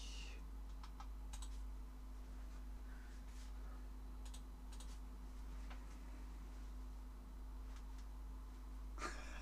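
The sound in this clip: Someone types a chat message on a computer keyboard, producing light, irregular clicks in short bursts over a steady low hum.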